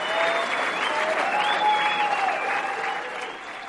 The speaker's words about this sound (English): And that was the sound of the audience giving her a standing ovation